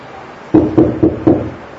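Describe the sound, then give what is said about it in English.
Four knocks sound on a door at home, evenly spaced and firm. They come on their own after a moment of quiet. “So there she is waiting, and there's a knock on the door.”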